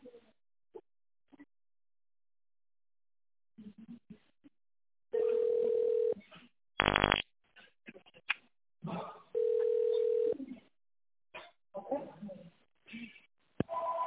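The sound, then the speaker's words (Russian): Telephone keypad dialing tones: two long, steady electronic beeps, each about a second, with a short loud burst between them, set among stretches of talk. “Если вы звоните нам впервые, то наберите номер нужного вам отдела.”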